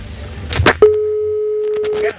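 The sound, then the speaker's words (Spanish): A telephone beep follows a caller hanging up without warning. A brief voice comes first, then one steady mid-pitched tone holds for over a second before cutting off. “quería decir que perdón por el pitido del teléfono, pero es que Hugo ha colgado el teléfono sin previo aviso”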